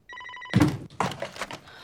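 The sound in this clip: A telephone rings as a brief steady electronic tone lasting about half a second, followed by louder, noisier sounds.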